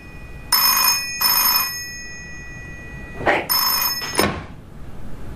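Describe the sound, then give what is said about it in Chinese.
An office telephone rings in bright, bell-like bursts: two close together, a pause, then more ringing broken up by a couple of dull knocks. “接电话合适吗？”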